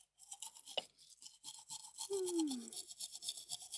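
A toothbrush scrubs someone's teeth as another person brushes them, giving soft, rapid, rhythmic bristle strokes that stay faint throughout.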